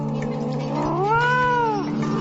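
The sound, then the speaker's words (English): A cat yowls in one drawn-out, wavering wail that rises and then falls in pitch. It sounds alone over a steady low hum. “Your cat's not wild. He's a wuss-puss.”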